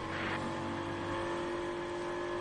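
An Aston Martin race car drives on the circuit, its engine a steady, continuous drone with a constant whirring tone and no voices.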